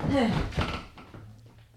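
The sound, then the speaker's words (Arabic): A door being closed in a spoken drama scene: a single dull thunk that fades quickly, briefly overlapping a voice at the start. “اقفل الباب اول.”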